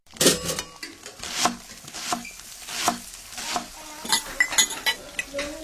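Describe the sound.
Cutlery and dishes clinking in a kitchen, with many irregular sharp clinks, clatters and scrapes, some quick and clustered, with no talk.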